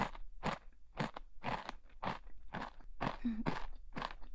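Crunchy food being chewed, a steady series of crisp, crackling crunches at an even rhythm, each bite a short bright burst, fairly faint and with no talking.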